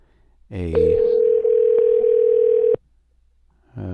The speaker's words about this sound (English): Let's give that number a call back. It seemed like it was ringing a cell phone.